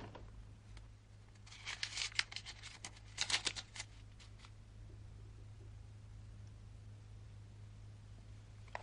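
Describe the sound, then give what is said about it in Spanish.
Papers leafed through by hand give crisp rustling and flicking bursts in two short clusters mid-clip, over a steady low hum. “Luego ojea unos papeles que lleva en la mano.”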